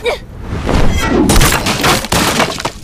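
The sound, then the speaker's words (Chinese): A burning wooden house collapses in a loud, sustained crash, its roof beams cracking and tumbling down with splintering bursts of breaking debris. “刚一挪步，身后的木房轰然倒塌”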